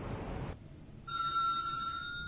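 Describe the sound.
A house doorbell rings with a bright, high electronic tone that holds steady to the end, following a brief burst of soft hiss.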